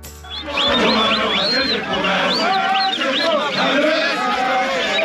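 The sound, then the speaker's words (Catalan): Crowd at an anti-immigration protest in South Africa: a dense, continuous roar of many voices shouting, laced with shrill whistles and high wavering cries. “I aquest és el so d'una de les multitudinàries manifestacions anti-immigració que han tingut lloc a Sud-àfrica”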